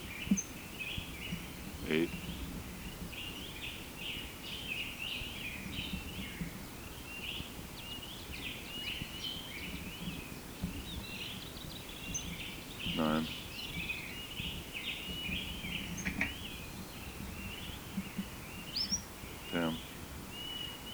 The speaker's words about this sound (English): Bird had been giving song syllables at 5 to 5. Now he's only giving position notes.